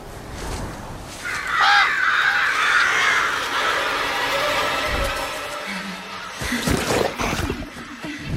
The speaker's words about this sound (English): The flock of crows begins their assault